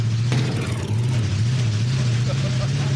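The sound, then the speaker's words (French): Engine droning from a small, slow vehicle with a carburetion problem as the driver speeds up, a steady low hum with slight pitch wobble under broad rushing noise. “Bon, là, je vais accélérer.”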